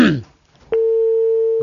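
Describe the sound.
A steady telephone tone after a caller disconnects: a brief voice, a short silence, then a loud, even, unbroken low tone that lasts about a second.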